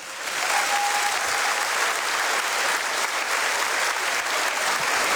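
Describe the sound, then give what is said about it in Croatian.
Audience applause for young performers swells in within the first half second, then holds as a thick, even roar of clapping to the end. “Molim vas, pljesak za Paola Kaštelana, prije njega za Doru Bokulić.”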